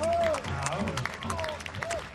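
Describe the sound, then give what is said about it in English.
Crowd applause welcoming a speaker at an environmental gathering, a broad clapping wash that runs under an announcer's voice at moderate loudness. “Let's meet and greet with a big round of applause, Shelley Vendiola from the Swinomish”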